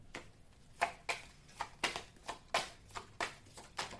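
Tarot cards being shuffled for a reading make faint, crisp riffling bursts that recur in a loose rhythm, many quick flicks with brief quiet gaps between them.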